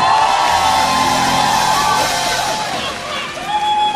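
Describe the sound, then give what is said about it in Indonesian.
Audience cheering and whooping after a singer's guitar performance at a live stage show, a loud sustained crowd roar with high whistles and shouted cries. “Sekali lagi tepuk tangan buat Fildan.”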